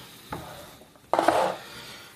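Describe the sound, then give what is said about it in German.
A small milk pot being handled among pans at a stove: a light knock, then a louder, ringing metallic clatter lasting about half a second. “Brauchen wir ein Töpfchen. Ich habe hier so ein kleines. Äh, ich glaube, das ist ein Milchtöpfchen, so heißt das.”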